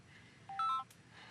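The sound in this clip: A phone signals an incoming call with a brief cluster of bright electronic beeps, quick and tonal, standing out clearly over a quiet background.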